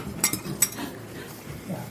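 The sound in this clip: Two brief, bright clinks of beer glasses touching in a toast, fairly faint, with quiet background noise after them.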